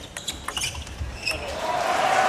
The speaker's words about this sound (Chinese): 接下来马龙发球，卡尔伯格接发，